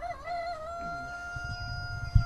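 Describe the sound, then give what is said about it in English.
Buff and English Orpington chickens roosting in a coop at night, faint: a long, drawn-out harmonic call holds steady throughout, with soft low bumps and scuffles toward the end and one sharper knock. “This is where they sleep at night. Mostly chickens in here? Yeah, we have English Orpingtons. We have Buff Orpingtons.”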